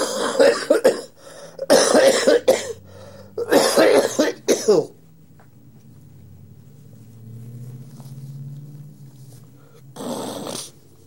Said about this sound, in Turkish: öyleyse öksürük cümlenin tamamlanmasına engel olabilir